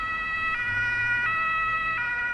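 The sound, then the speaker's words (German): An emergency vehicle siren wails on a main street in Schöneberg. Its steady tones shift pitch at regular intervals of under a second over a low rumble of traffic, with no voices. “Blaulicht und Sirenengeheul sind an der Hauptstraße in Schöneberg Alltag”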